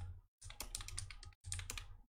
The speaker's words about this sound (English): let me see if I can type this out